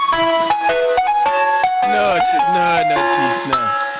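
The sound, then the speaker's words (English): An ice cream van jingle plays as a bright, chiming melody of stepped notes with a bouncy rhythm, and voices talk over it. “I think all electric cars should be fitted with the ice cream van soundtrack.”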